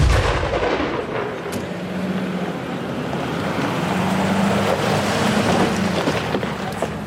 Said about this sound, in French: Ça a été le tir, ça s'est bien passé?